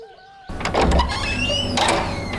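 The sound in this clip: A door is opened in a home, producing a few scraping, squeaking bursts over a steady low hum.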